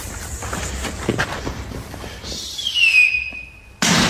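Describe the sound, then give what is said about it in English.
A man vocally imitates a firework, making a high whistle that slides downward and then a sudden loud burst at the end, over a steady bed of background noise. “It sounded like a firework going off, right? That's what the guy kind of mimes the sound of a firework going off.”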